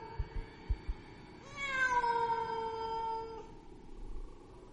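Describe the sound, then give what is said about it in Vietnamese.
A cat meows mournfully with a touch of anger in a deserted graveyard at night. One long, drawn-out, faint meow follows a few soft low thumps. “Trong không gian vang lên âm thanh con mèo kêu đến não ruột. Mà dường như trong âm thanh của con mèo lại pha một chút giận dữ.”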